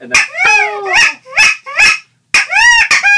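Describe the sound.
Wood ducks calling on the water, a rapid series of high, squealing shrill notes with sliding pitch, loud and with no talk.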